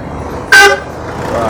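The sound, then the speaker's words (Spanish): A single short car horn toot cuts through steady street traffic noise at a busy city plaza, loud and brief against the constant hum of vehicles. “Ah, hay tráfico acá, hoy día.”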